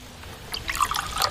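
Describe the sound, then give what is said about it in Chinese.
Water poured into a glass: a faint, bubbly trickle with small splashes that grows busier and louder in the second half, no voices. “您坐下，您坐下，我不是这个意思。您看，您坐下，我给你倒水。”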